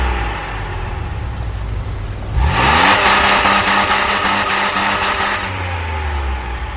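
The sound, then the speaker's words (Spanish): Engine of a black SUV driving up a street: a steady low hum swells into a loud, sustained roar partway through, holds for a few seconds, then eases back to a lower drone. “Un todoterreno negro aparece por el final de la calle y le corta el paso.”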